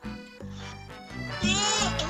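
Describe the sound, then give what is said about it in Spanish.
Sheep bleating: a couple of nasal, wavering bleats, the later one louder and more strongly quavering. “Bien, pues dinos a ver la respuesta de la adivinanza. La oveja.”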